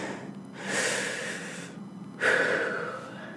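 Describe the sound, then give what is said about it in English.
Deep breaths taken during a calming breathing exercise: two long, airy breath sounds separated by a short pause, the second starting more sharply, clearly audible with no talking. “So to start, we're going to take a deep breath together.”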